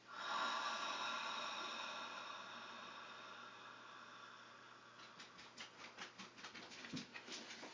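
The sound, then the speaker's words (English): A long exhale through an open mouth during a breathing exercise, a soft breathy rush that is strongest at first and slowly fades over several seconds, followed by faint rhythmic rustling. “Inhale through the nose. Hold the breath inside the body. And now exhale through an open mouth.”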